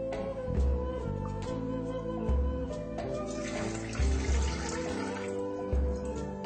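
Water pours into a cooking pot under a steaming platform, a continuous splashing, rushing flow at moderate level that lasts the whole clip with slight surges, and no one speaks.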